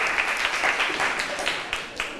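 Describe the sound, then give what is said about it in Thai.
Classroom students applaud a classmate with dense, scattered clapping that holds steady and fairly loud throughout, with no talk over it. “ถูกต้องค่ะนักเรียนเก่งมากปรบมือให้เพื่อนหน่อย”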